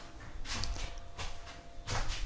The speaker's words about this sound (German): aber ich werde mal die Fenster zumachen. So. Nicht, dass wir die Leute hier stören.